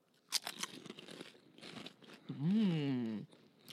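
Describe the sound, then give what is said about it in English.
Crunching of truffle-flavoured Asian snacks: a few sharp, crisp crunches near the start, then a long hummed voice sound that rises and falls in pitch as the snack is tasted. “I love Asian snacks. You grab yours, I'll grab mine, and we'll try it together at the same time.”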